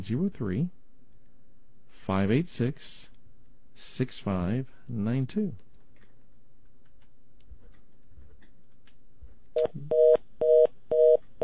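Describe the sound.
Telephone line tones on a radio call-in line: a few short, evenly spaced electronic beeps sound alone after a stretch of talking and a long quiet gap.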